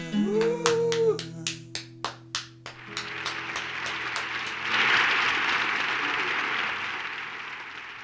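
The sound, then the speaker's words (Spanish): An audience bursts into applause after a live performance, a few sharp separate claps at first, then building into a dense, steady wash of clapping that swells and holds, with a faint tonal note under the start. “No se pongan así, tanto aplauso.”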